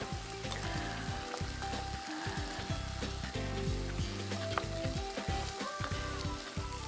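Grains frying in oil sizzle steadily while being stirred for a pilaf-style dish, with a dense, even crackle and a run of scraping stirring strokes throughout, no voices.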